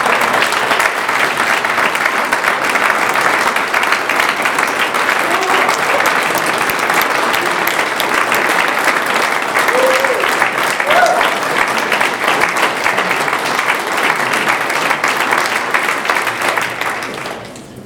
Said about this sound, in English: that was the entire applause line, and I wanted you to listen to all of it.